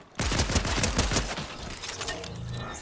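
Gunfire in the video game Fortnite erupts in a rapid burst of many closely spaced shots, loud at first and then thinning into a trailing rattle and echoing tail.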